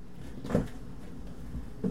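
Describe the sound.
Two soft knocks as a carton of buttermilk is put back into the fridge, brief and quiet, separated by a pause of just over a second.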